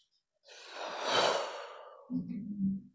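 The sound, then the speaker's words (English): A deep breath is drawn in and blown out during a guided relaxation session: one long, airy rush of breath, fairly faint, ending in a soft, low voiced sigh, with no speech. “Take a deep breath in.”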